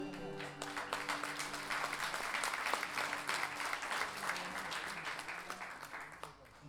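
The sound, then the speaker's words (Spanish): Audience applause at a national guitar festival, with thick, continuous clapping at a steady level and sustained musical tones ringing underneath it. “aplauso para Gabriel Torres, por favor.”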